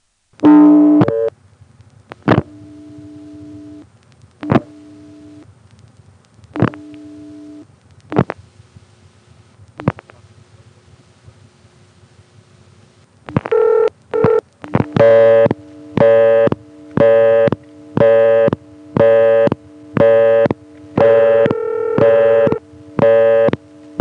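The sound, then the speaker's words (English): A telephone ring with a busy signal tone laid over it by a callback circuit on a phone line. It opens with a few short tone bursts and clicks, then a loud, steady run of evenly pulsed tones. “and that'll get the callback circuit to put its busy signal tone on the line, which is normally just a signal for the subscriber to hang up, but what this will do is it'll give us the ring with the busy signal superimposed.”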